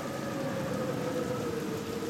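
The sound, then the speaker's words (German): Rain and cold wind on an autumn day, with leaves blown from the trees and the ground turning to mud. A steady, even hiss runs throughout, with a thin, sustained whistling tone in the wind. There is no talk. “Ein kalter Wind weht die Blätter von den Bäumen. Regen verwandelt den Boden in einen schmutzigen Morast.”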